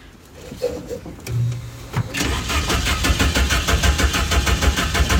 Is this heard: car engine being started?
yes